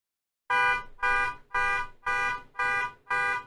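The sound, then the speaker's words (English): A car alarm blares outside a window in six loud, evenly spaced buzzing honks. Each steady tone lasts about half a second, with short gaps between and no voices. “someone went ahead and activated a car alarm right outside my window, and that is really, really distracting.”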